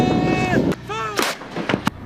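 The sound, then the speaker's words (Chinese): Artillery fires its opening round during a multi-munition, day-and-night live-fire exercise at high altitude. Several sharp, loud blasts punctuate a short stretch of steady sound. “抵达指定地域后，各分队迅速按战斗队形散开，占领发射阵地，首轮火力打击随即展开。”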